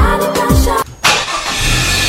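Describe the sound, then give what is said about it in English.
A car engine turns over and roars: a short, loud harmonic burst, then a brief cutoff, then a broad, sustained rush of engine noise. “Hey, bro, I did feel your ride. It's so smooth. You know, this vehicle runs on Gol Super XP Ron 95, loaded with additives.”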